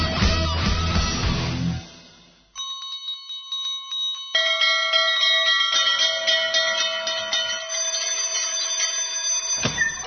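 A bell rung to signal the end of a school show: after a short burst of noise, loud, sustained metallic ringing builds into layered, overlapping tones that continue to the end.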